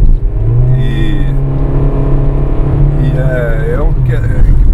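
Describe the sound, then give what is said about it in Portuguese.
Steady low engine and road drone inside a moving Honda City with a CVT transmission, holding an even, smooth tone at moderate loudness with no distinct shift jolts. “Estamos no City, um câmbio CVT.”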